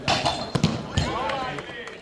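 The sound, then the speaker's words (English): A football is kicked in rapid passes during a German Homeless Cup street football match on a small pitch. Sharp thumps come in quick succession under voices. “On the pitch, the players boot the ball in a series of rapid passes.”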